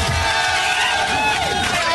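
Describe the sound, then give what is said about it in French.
People in a radio studio cheer and shout for a guest during a live evening show on Fun Radio. Several voices yell over one another in a steady, excited burst, mixed with talk. “On peut lui faire une standing ovation. Il est là, il réclame des applaudissements.”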